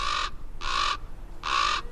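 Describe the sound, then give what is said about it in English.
A common raven calls three times, each a harsh, rasping caw of about a third of a second, separated by short pauses, loud and clear with no other voices. “The desert seems an unlikely choice for this all-black bird, but ravens thrive, even in the hot, arid Southwest”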